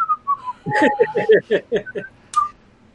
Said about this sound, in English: Darastan is just sitting there whistling